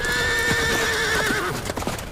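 Horses neighing and hooves clip-clopping as riders leave. A long, high whinny is held for about a second and a half over loud hoofbeats, then irregular hoof clatter continues.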